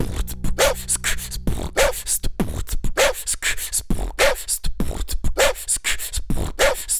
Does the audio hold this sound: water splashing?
no